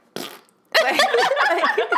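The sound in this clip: A person imitates a fart with the mouth: a short breathy burst, a brief gap, then a longer buzzing, wavering vocal sputter, fairly loud.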